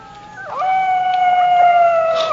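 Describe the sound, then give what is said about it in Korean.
A wolf howls at night in the woods: one long, loud, tonal wail that dips briefly early on, then holds a steady pitch to the end. “그때 그들을 두렵게 하는 늑대 울음소리가 들려옵니다.”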